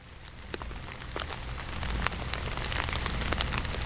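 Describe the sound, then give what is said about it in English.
Rain falling makes a steady, soft patter of many drops on a surface, with a few sharper individual drips standing out. The sound grows slightly denser toward the end. “trying to summon some rain with this background, these background sounds you're hearing”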